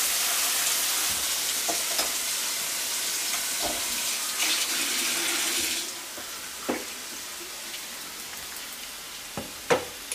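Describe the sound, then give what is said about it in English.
Tap water runs over drained packaged noodles being rinsed, a steady loud rushing for about six seconds that then stops, leaving a few faint clicks and knocks, with no talk. “And then what I did here with my healthy noodle is I drained it. So you have to open up the package and you have to rinse it.”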